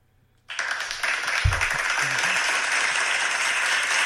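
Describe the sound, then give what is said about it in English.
Studio audience applause in a standing ovation: dense clapping bursts in suddenly and holds at a steady, full level to the end. “You like that? You got a standing ovation from the studio audience.”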